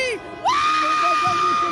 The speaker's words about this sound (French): Les klaxons résonnent dans tout le quartier alors que la foule en liesse défile sur le boulevard de la Chapelle, direction les Champs-Élysées.